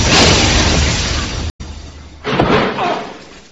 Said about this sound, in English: Quickly up. Before the fuel tank goes up.